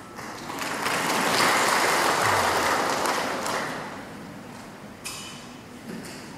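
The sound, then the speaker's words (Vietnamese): Audience applause at a Buddhist dharma talk given by a senior monk: a broad, continuous wash of clapping that swells in the first second, holds steady, then gradually thins and fades toward the end. “Quý vị vỗ tay càng nhiều càng tốt.”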